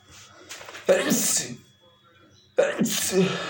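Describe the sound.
Two loud, abrupt sneezes, each bursting out sharply and trailing off over about half a second, separated by a quiet gap.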